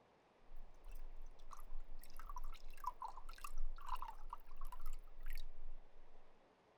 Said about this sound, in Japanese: すごい勢いでティーカップを突き出したの。おかわりか？よいよい、慌てるでない、いっぱいあるからの。ほれ、また注ぐぞ。